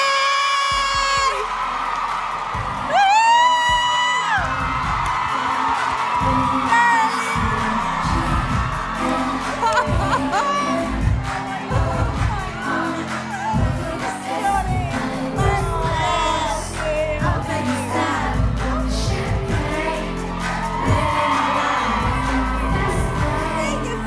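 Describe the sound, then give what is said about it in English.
A live audience at Vicar Street on 4 April 2023 cheers and whoops as a guest comes on, with scattered shouts over a steady thumping beat that runs for the whole stretch. “Get on your feet and give a warm How My Drink welcome to Sophie Murray.”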